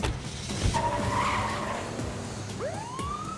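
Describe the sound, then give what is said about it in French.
Tires screech as a van pulls away and a chase starts up again. Loud squealing skids play over a steady engine rumble, with a long rising squeal near the end. “Mais le véhicule démarra et la poursuite reprit.”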